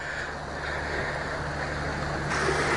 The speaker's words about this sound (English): So we're actually running downwind on the Suez Canal. Okay, we're still motoring as well, but we managed to gain just under a knot